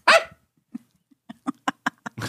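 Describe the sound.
A female dog on a bed, wanting to get down, lets out one loud bark, then a quick run of short, quieter yips and barks at an even rhythm.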